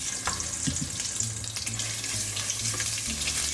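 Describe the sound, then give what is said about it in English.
Tomato paste sizzles and caramelizes in hot oil and bacon fat, a steady bright frying crackle with a few soft stirring scrapes, alone without talk. “you want to spread it around, and you want it to caramelize in the oil and the bacon fat”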